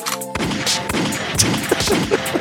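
Gunshot sound effect: a loud run of sharp, noisy cracks in quick succession that follow a brief tonal intro and continue over a dense, rough background.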